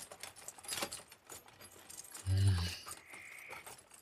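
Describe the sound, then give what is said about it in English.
Keys jangle faintly in a quiet space, with a few soft metallic rattles and a brief, fuller burst of noise near the middle. “Keys. I think Wild Hog has the keys.”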